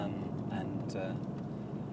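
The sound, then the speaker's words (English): A car interior on the drive to work, with a steady low engine and road rumble running under a person talking. “I'm driving. Driving to work.”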